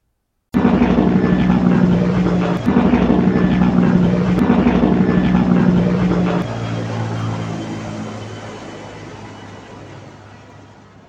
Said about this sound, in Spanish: Montémonos en el avión para Colombia.